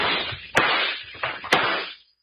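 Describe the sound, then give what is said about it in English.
Gunshots and breaking as a lamp is shot and smashed: two sharp, bright cracks ring out over a rough, crunching crash that runs throughout and then dies away. “Dad, when that lamp broke, it set fire to this place.”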